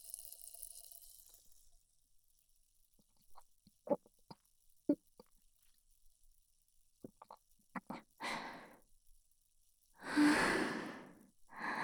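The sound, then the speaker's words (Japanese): Someone drinking a beverage: faint sips and small gulping clicks scattered over several seconds, then two louder, breathy exhales near the end. “なんか喉渇いちゃった。ちょっと飲むね。”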